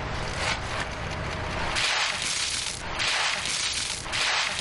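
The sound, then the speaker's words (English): Ice water from a bucket dumped over someone for the ALS Ice Bucket Challenge, a continuous broad rushing splash that lasts for several seconds. “I humbly accept Thomas Dimitroff's Ice Bucket Challenge to strike out ALS.”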